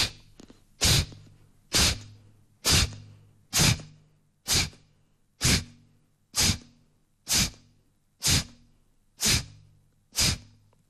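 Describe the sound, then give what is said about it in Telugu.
Kapalabhati yoga breathing through the left nostril with the right one held shut: eleven sharp, forceful nasal exhalations in a steady, even rhythm, each a short loud puff followed by a brief quiet gap. “ఇది ఎడం వైపు నుంచే కపాలభాతి జరుగుతుంది. దీన్నే వామ కపాలభాతి అని అంటాము. ఈ చేసే విధానం చూడండి.”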